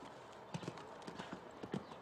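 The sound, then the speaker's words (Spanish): Hoofbeats of a horse during a show jumping round: a faint, steady series of soft, rhythmic thuds with a few louder strikes, heard alone. “Ya ven que su caballo se va muy arriba en los altos, dirigiéndose al vertical que había derribado Carlos anteriormente.”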